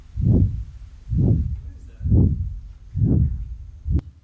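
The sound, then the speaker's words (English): A human heartbeat: five loud, dull, low thumps at a steady pace of about one per second, each swelling and fading smoothly. “someone's heartbeat.”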